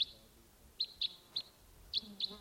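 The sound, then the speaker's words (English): Decoy birds calling give six short, high chirps at irregular intervals, faint against a quiet, low background with no voices. “Yeah, no sign of it. Just the decoys calling there.”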